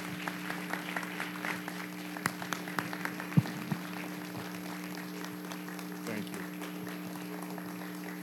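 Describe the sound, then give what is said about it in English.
A church audience applauds with steady, fairly faint clapping, and a few sharper claps stand out from the crowd. “And the church said, amen. Put your hands together.”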